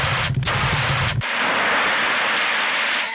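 Loud, steady spraying hiss puts out a fire of burning Pop-Tarts, with a low rumble under the first second that then drops away, leaving the broad hiss alone.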